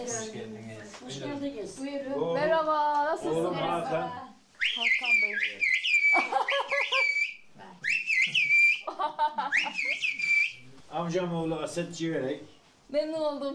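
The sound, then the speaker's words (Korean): Whistled language from Turkish mountain villages, used on slopes to pass urgent news quickly. Talk comes first, then several loud, high whistled phrases with gliding, warbling pitch and short pauses between them. “산비탈 마을에서 신속하고 위급한 상황을 알려야 할 때 유용하게 사용되어 온 휘파람 언어입니다.”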